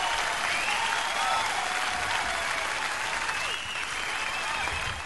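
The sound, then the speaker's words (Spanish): Steady applause from an audience at a live stage event, a dense, even wash of clapping that holds at a consistent loudness for about five seconds with no voices standing out. “¿Cómo aplauden lo que yo dije que había sorpresita?”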